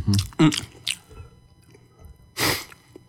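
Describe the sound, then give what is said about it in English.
Someone eating pizza makes a few wet, squishy chewing bursts of varying loudness, separated by quiet moments, with a longer, louder smacking burst near the end. “So who wants to talk real quick while I eat some pizza?”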